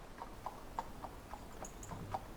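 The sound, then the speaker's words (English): Faint horse hooves clop in a steady, evenly spaced series as mounted riders leave a courtyard, a light ticking rhythm of a few hoofbeats each second, with no voices. “Cynewyn and Thurstan as they ride out of the courtyard”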